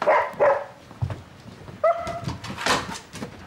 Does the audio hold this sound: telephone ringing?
no